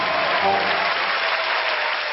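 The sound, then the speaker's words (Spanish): Applause and ovation from an audience for a tango performance: dense, steady clapping that stays loud and continuous for the whole stretch, with no clear break. “Los aplausos, la ovación”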